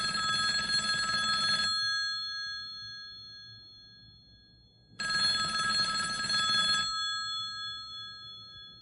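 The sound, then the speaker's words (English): A telephone bell rings with an incoming call: two fairly faint bursts of bright, metallic ringing, each under two seconds, separated by a pause of about three seconds, with a short fading tail after each. “I think we have a caller, which is strange because this isn't a call-in show.”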